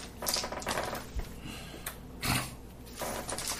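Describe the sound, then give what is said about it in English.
Dice rolled during a tabletop role-playing game give faint clattering and clicking throughout, with a few sharper knocks standing out. “You rolled the dice.”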